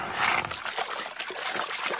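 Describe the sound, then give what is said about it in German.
A cartoon dinosaur slurps the water out of a pond in a steady, gurgling, hissy wash of liquid that runs without a break for about two seconds. “Kali schlürft den Teich aus.”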